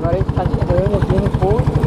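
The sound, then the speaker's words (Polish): A boat engine chugs with a fast, steady low pulse as the boat approaches the shore, while a man talks over it. “Dopływamy. O. I już silnik wyłączony.”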